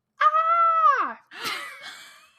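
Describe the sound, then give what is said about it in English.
A voice imitates a loud, anguished cry from a one-toilet classroom bathroom during kindergarten nap time: a long, sustained wail that drops in pitch at its end, followed by a shorter, breathier second cry. “like a loud anguished cry, like not a scream but like a cry.”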